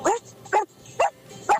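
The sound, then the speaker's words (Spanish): A person imitates a dog barking with their voice, giving four short, evenly spaced woofs at a mid pitch, with no other talk. “Y ladro un poquito.”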